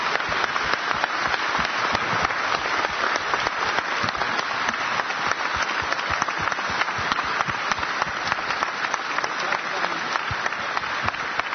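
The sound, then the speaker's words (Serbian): Sustained audience applause for a folk music singer and composer at a Serbian event: dense, steady clapping that fills the whole stretch without a break. “Molim vas još veći aplauz”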